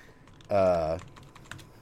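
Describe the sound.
A few faint taps on a computer keyboard come during trouble with a Skype call, following a short hummed voice that stands out above them.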